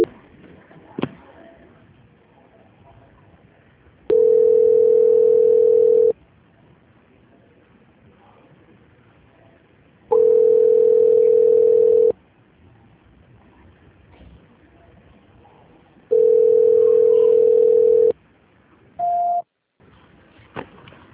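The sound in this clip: Telephone line tone during a call transfer: three long, steady mid-pitched tones, each about two seconds, separated by gaps of several seconds of faint line hiss, then one brief higher beep at the end.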